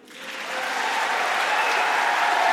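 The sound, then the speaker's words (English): An audience applauds after a quartet's performance at a convention weekend. The dense clapping swells quickly at the start, then holds steady and loud throughout. “An enthusiastic round of applause for Footlights Quartet”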